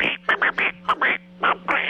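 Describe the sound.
A voice imitates a cartoon duck's quacking: raspy, nasal, garbled chatter delivered in many quick bursts with short gaps, loud and alone over a faint steady hum.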